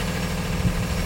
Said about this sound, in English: That's the sound of a loud, diesel-guzzling yellow school bus.